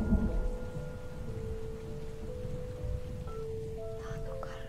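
Steady rain with low, rumbling thunder falling over a garden of fruit trees in the dark, a continuous dense wash of noise with no distinct claps, under faint sustained tones.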